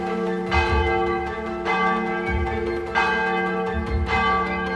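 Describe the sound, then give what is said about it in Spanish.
Church bells of the San Sebastián temple in Comitán ring loudly in repeated, evenly spaced strikes, each blending into a sustained, humming ring under deep, booming tones. “Las campanas del templo de San Sebastián repicaban con fuerza.”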